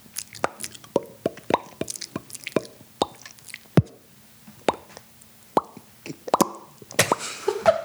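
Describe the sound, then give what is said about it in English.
Many short, hollow popping noises come in an irregular rhythm, some louder and sharper than others, with no talk. “Please enjoy these popping noises while you wait.”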